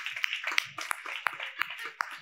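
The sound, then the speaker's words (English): Scattered clapping rises from a church audience as volunteers stand to be honored, with a few sharp claps standing out over a soft, uneven patter, all fairly faint. “Yes, let's keep clapping.”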